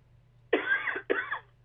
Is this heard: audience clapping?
no